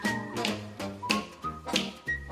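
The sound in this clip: A whistled TV theme tune from The Andy Griffith Show carries a bright, steady melody over plucked low notes that fall in a regular rhythm, with no voices.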